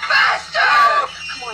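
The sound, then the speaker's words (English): A woman screams in two loud, high-pitched bursts. The second burst is longer and rougher, and the sound trails away after it. “Why did she scream now?”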